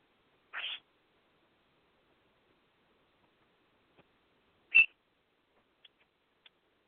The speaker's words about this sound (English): Screaming bird. Well, he was just saying hi.